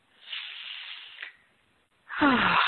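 A group drawing a deep breath together during an opening prayer: a long, soft hissing inhale, a short silent pause, then a louder rushing exhale with a faint voiced edge.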